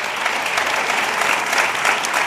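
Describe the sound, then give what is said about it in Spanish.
An audience applauds two guests with loud, continuous clapping that holds steady throughout. “Aplauso para los dos.”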